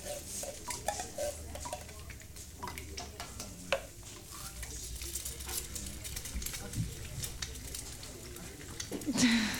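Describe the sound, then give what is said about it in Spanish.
Café ambience at Omar's small café, with scattered clinks of dishes and cutlery over a steady busy background and faint murmuring voices. “Nos metemos en el cafetín de Omar a charlar sobre temas poco importantes.”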